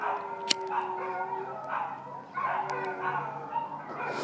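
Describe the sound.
Dogs barking, several sharp barks and yips over a steady, noisy background.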